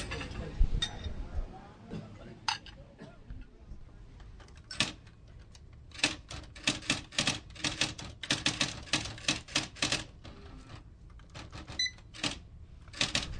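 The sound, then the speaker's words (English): Sharp mechanical key clicks as a 96-year-old man writes a birthday card to his nephew, many irregular strikes coming in bursts with short pauses between them. “I'm writing a birthday card to my nephew.”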